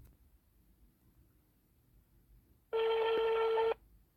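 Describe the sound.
A telephone ringback tone sounds on an outgoing call: one steady, bright electronic ring burst lasting about a second after a stretch of near silence, then it stops.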